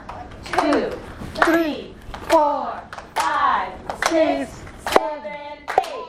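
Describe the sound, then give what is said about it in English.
Hands clap in a steady series of sharp slaps, about one per second, mixed with children's voices speaking and chanting in a clapping game. “Now we have to clap.”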